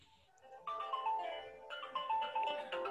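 A phone ringtone plays a bright, melodic electronic tune of short stepped notes. The phrase starts, breaks off briefly and repeats, fairly loud and with no voices.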